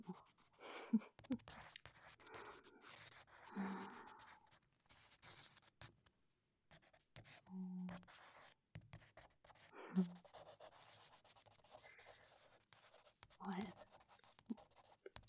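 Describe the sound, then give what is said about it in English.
A pencil draws lines while sketching someone on a couch: faint, scratchy strokes come in irregular bursts, with quiet speech and breathing at times. “It's just that as I draw these lines, as I draw how you look on the couch right now,”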